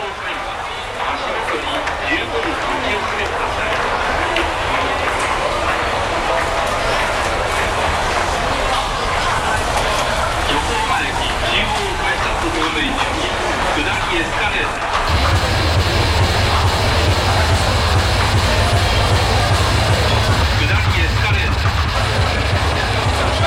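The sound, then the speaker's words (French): Street ambience beside the central railway station in Yokohama: a dense, continuous wash of city noise with train rumble and clatter and murmuring voices, becoming louder and deeper partway through. “À la base, j'ai fait un grand travelling sonore à côté de la gare de Yokohama, c'est le centre de Yokohama.”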